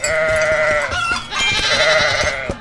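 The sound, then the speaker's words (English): A goat bleats twice with long, wavering, nasal cries over a faint rhythmic clicking. “there's a goat.”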